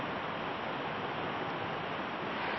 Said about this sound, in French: J'enregistre cet accompagnement au bord de l'eau, au bord d'un torrent qui s'appelle la Sévresse, dans le Val-Gaudemar, là où je vis.